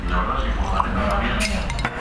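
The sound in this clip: A drinking glass is set down, giving a few brief, light clinks over a steady low background rumble.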